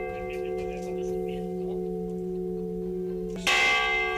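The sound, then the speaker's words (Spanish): Restored church bells of a parish church ring out in a sustained, humming peal with steady overtones, then a fresh loud strike lands near the end and brightens the ringing. “queremos ponerte el de las campanas restauradas de la iglesia parroquial de Viscarrués, que sonarán dentro de una fiesta organizada para el próximo sábado.”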